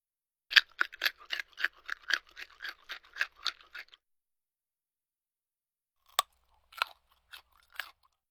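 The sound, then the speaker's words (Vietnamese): Crisply fried bacon being bitten and chewed, giving a quick run of sharp, dry crunches at an even rhythm, then a pause and a few more scattered crisp crunches. “Câu ví dụ của anh Duy Khánh có thể hiểu là thịt xông khói đã được nướng giòn tan, dùng để diễn tả thứ gì đó không còn nước, nhẹ và giòn khi cắn.”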